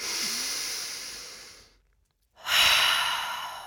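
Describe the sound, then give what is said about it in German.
A deep breath drawn in through the nose makes a long airy hiss, then breaks off into a moment of silence before a second, louder rush of breath. “Und jetzt wollen wir ein letztes Mal ganz tief einatmen durch die Nase.”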